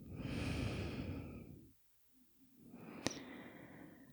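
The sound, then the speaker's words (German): Slow, deep breathing in and out during a meditation: a long, soft, airy exhale fades to a brief silence, then another full breath is drawn in and released. “Nimm ein paar tiefere Atemzüge ein und aus.”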